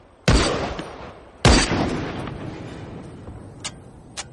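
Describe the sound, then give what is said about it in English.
Rifle gunshots fired at a rusted tin roof: two loud, sharp cracks about a second apart, each trailing off in a long rumbling decay, followed by two faint metallic clicks as spent shells eject. “He aims down the barrel of the rifle. The expended shells eject after each shot.”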